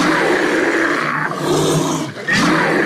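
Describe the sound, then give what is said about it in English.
A brown bear roars, loud and sustained, with deep rough growling tones. The roar breaks off briefly near the end before another bellow starts up. “That is the sounds of a brown bear.”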